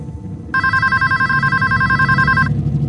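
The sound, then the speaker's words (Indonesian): An office telephone rings with a single continuous electronic trill lasting about two seconds, loud and bright over a low steady background rumble, which continues after the ring stops. “Hingga telepon kantor berbunyi.”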